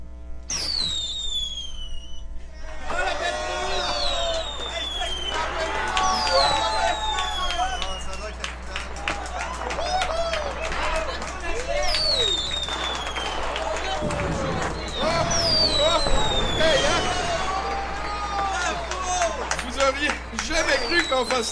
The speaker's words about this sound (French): Pour célébrer ce 50e épisode de Podcast en Grande, il me fait plaisir de vous offrir cette séance de feu d'artifice. Technicien, s'il vous plaît.